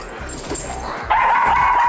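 A Boston terrier whimpers with a thin, high whine. It begins faint beneath low rumbling, then turns louder and steadier through the second half.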